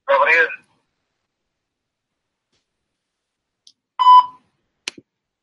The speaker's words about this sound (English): Voicemail.